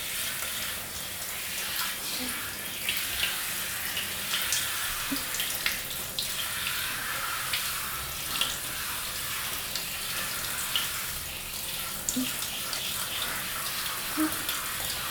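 Running water rinses exfoliating body scrub off skin, a steady, moderately loud hiss of flowing water throughout, broken by a few soft splashes and small irregular spatters.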